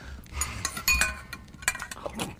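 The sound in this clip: A hot dinner plate is set down on a table: a few light clinks and clatters of crockery and cutlery, fairly faint, with small knocks scattered across the moment.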